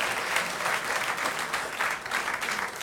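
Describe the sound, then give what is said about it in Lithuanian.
Audience applause for a performer taking the stage at a comedy show: dense, steady clapping that holds at an even loudness for the whole stretch, with no voices over it. “Baisus plojimai.”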